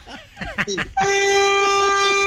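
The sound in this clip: A vehicle horn honks once in a long, steady, unbroken blast from a driver. It lasts over a second and holds an even pitch to the end, after a brief stretch of voice at the start.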